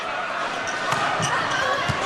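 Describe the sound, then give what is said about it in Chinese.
Volleyball serve struck by the number-ten player in an international match against China, heard as a few sharp slaps and thuds of the ball under a commentator's voice and steady crowd noise. “十号黎如英的发球。”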